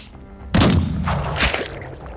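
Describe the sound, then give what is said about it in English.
A rifle gunshot: one sudden, loud crack with a sharp onset that trails into a long, rumbling decay, with no voices over it. “And I shoot. Give me a firearms roll for the rifle.”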